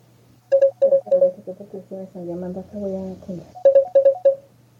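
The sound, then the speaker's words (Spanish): A telephone rings with an incoming call: quick, bright tonal pulses come in two bursts, with a voice in between. “Le están llamando”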